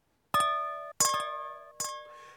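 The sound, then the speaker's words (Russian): Glasses clinking together in a New Year toast: a few bright, ringing glass clinks, each with a sustained tone that fades. The middle strike is followed by a couple of quick extra taps. “Наполним бокалы и сдвинем их разом. С Новым годом, с новым счастьем.”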